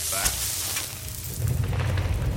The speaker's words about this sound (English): Oh man, we are on fire. Let's take a resist fire potion.